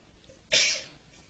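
One loud, breathy sneeze bursts out sharply after a quiet moment and fades quickly.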